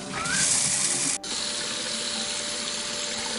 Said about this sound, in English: All the water taps turned on at the same time,